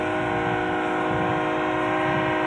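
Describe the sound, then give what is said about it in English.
A train horn sounds at a college football stadium after a game, a loud, steady multi-tone chord held without a break for the whole clip over a low rumbling bed of noise. “Let the train horn do its thing.”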